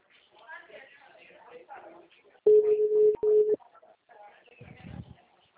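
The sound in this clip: An outgoing phone call produces a low, steady ringback tone that sounds for about a second, broken by one brief gap. People talk before and after it.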